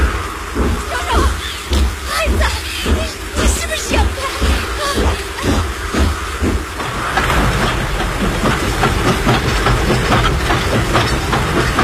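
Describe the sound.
A train rolls slowly onto a flooded railway embankment in a staged drama, with a steady rhythmic clickety-clack of many wheel beats for about seven seconds, then a dense continuous rushing wash takes over at a similar loudness.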